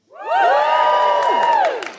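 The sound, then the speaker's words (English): A crowd cheers and whoops when asked whether they are in love, many voices rising together in one loud, sustained burst that holds for over a second and then fades. “Okay, give us a cheer if you are, and I don't really know how to put this, in love.”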